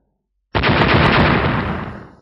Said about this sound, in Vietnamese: Tiếng nổ vô tận cuồng bạo, sóng xung kích vô tận.